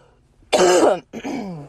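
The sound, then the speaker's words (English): Throat clearing and coughing: two rasping bursts in quick succession. The first is louder and harsher, and the second is slightly softer with a low, voiced tail. No talk. “I also just want to say thank you for sticking with this cough right now”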